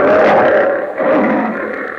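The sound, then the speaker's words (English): A lion roars in a long, loud, rough growl that swells twice, briefly easing in between, with no other sound. “As the lion says...”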